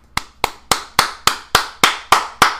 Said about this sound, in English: clap it up, you know, respect, hats off, the whole nine.